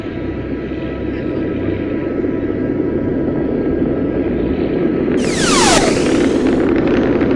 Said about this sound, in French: Elle monte dans sa fusée. 5, 4, 3, 2, après, elle décolle.